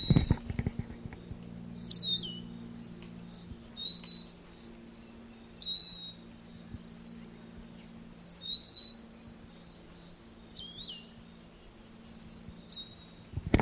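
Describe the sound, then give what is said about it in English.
Five short, high bird calls come at uneven intervals over a steady low hum, each a quick chirp standing out clearly from the quiet background. “Same bird.”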